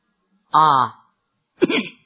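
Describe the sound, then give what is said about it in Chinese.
A light cough from a single voice comes in two short bursts. The first is longer and tonal, the second is briefer and rougher, with silence around both. “鳌拜轻轻咳嗽了一声”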